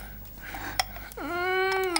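A girl cries with a drawn-out wailing sob that rises at first and then holds a steady tone, after a quieter stretch with a faint sharp click.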